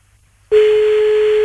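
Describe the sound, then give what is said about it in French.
A telephone ringback tone sounds as a call is placed. After half a second of near quiet, one steady low tone starts abruptly and holds unbroken to the end, with line hiss above it. “Allez, on y va, on l'appelle.”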